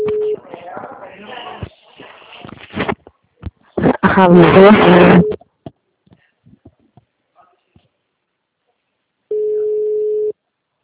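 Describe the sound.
A telephone busy tone from a call that does not get through, a brief steady tone at the start and a second, roughly one-second steady tone at the end, with people talking in between.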